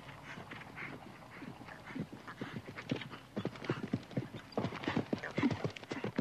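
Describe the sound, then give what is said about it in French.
Clip-clop of a black horse's hooves as it jumps obstacles one after another with a rider aboard: many rhythmic, fairly faint hoofbeats that grow slightly stronger and denser toward the end. “un cheval noir franchissait les obstacles, les uns après les autres”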